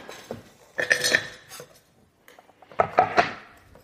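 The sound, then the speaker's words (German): Knife chopping chocolate for a praline filling: two clusters of sharp, clattering knocks and clinks separated by a short quiet pause, with no voices. “So, ich habe jetzt die Schokolade klein gehackt.”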